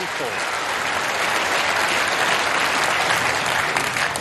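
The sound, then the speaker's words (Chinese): Loud, sustained applause and cheering from the stands at the Crucible greet a newly crowned snooker world champion, with dense clapping running steadily throughout. “吴一泽是新科的世锦赛冠军，在克鲁斯堡的看台上又响起了专属吴一泽的庆祝的声音，所有人都在高呼着他的姓氏。”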